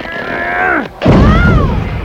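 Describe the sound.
A clown is launched from a barrel by a Pentagon-surplus rocket delivery vehicle, a comic launch heard as a tonal sound, a brief gap, then a sudden loud boom. A sustained, heavy roar carries on after the blast.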